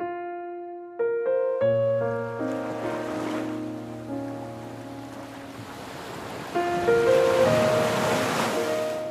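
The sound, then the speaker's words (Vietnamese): Sea waves and wind wash along an island shore at night in November on Phu Quoc, a steady rushing surf noise that swells and eases under sustained, soft musical tones. “Đêm Phú Quốc tháng 11, biển lặng lẽ thở than, gió mơn man từng rặng dừa, mang theo vị mặn mòi đặc trưng của xứ đảo.”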